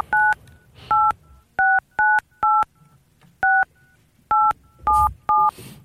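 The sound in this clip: Telephone keypad tones sound as a number is dialed. Nine short, clean two-pitch beeps come in an uneven rhythm, some in quick succession, fairly faint over a low background hiss.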